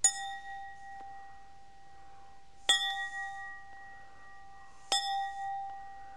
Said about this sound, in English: Oh, here's the gong. Let me get it.